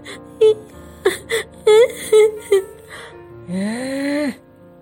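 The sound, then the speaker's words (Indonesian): A person cries in several short, high whimpering sobs, then lets out a longer drawn-out wail that rises in pitch, heard alone without other talk. “Aduh, masih aja nangis. Sedih banget ya.”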